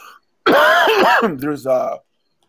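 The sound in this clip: A loud throat clearing and cough, voiced and rasping, in a few pitch-wavering bursts that run for about a second and a half after a brief quiet pause.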